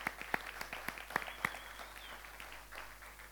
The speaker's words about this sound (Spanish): Muy bien, un aplauso a los que están por primera vez.